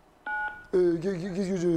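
A telephone line beep: a short, steady electronic tone, followed after a brief gap by a longer, louder wavering tone. The sound is clear, with no talk over it.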